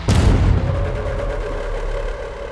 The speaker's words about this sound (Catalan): Lentament un dit prema el gallet d'un revòlver.